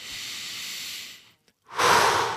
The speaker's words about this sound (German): wir atmen ein und wir atmen aus